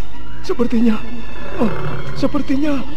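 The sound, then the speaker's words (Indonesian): Black panther roaring in a forest: a few loud, rough growling roars with wavering, bending pitch, coming in short bursts over a constant low rumble. “Sepertinya macan kumbang. Celaka, dia mengejarku.”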